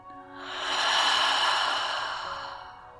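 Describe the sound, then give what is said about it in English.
A single long, deep exhale after a big breath in during a guided meditation, breathy and airy, swelling in loudness and then slowly fading, with no voices. “Once more, biggest breath in of the day. Fill all the way up. Biggest exhale yet.”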